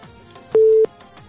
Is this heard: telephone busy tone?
yes